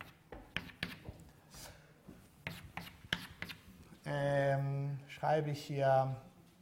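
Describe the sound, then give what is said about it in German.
Handwriting sounds as someone writes in two columns, with irregular scratchy strokes and light taps of the pen in quick bursts. A person then speaks over the last part. “Ich schreibe hier, ich hoffe, dass man das sieht, ich nehme jetzt wieder zwei Kolumnen und dann schreibe ich hier einfach”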